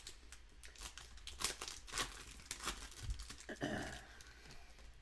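2021 Heritage and Donruss MLB trading card packs are ripped open with faint, busy crinkling and tearing of wrappers, many small rustles running on with no pause.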